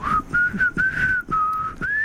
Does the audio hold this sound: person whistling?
yes